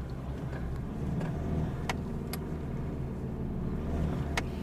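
A car drives on a road with a steady, low engine rumble and road noise that holds an even level throughout, broken only by a few faint ticks.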